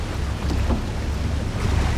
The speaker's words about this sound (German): Das ist das Wassertaxi.